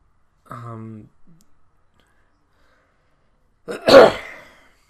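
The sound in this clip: Throat clearing from something stuck in the throat: a short voiced hum, then after a pause one sharp, harsh burst of clearing that fades quickly.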